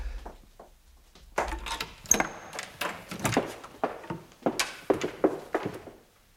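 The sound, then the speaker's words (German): A door is opened and someone rushes down the stairs: a few dull thunks give way to a quick, steady run of soft thudding footsteps, faint and without voices. “Hast du gehört? Der ist die Treppe nur so runtergestürzt.”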